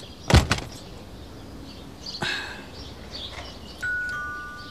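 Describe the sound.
A door shuts with a sharp thump, catching a jacket in it, followed about two seconds later by a softer knock amid quiet background noise. A thin steady tone appears near the end.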